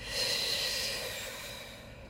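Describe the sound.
One long breath during a guided meditation, a steady airy hiss through the nose that swells quickly, then fades slowly over about two seconds.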